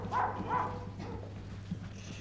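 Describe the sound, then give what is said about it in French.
Dogs barking: a couple of short, fairly faint barks close together at the start, then quieter yelps over a low, steady hum. “Les chiens aboient.”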